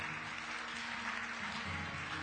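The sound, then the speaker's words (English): A church audience applauding during a morning service, giving a continuous, fairly faint wash of clapping that holds evenly from start to finish. “Can we applaud our King this morning?”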